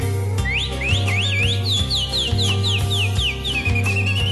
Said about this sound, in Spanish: Silba la calandria.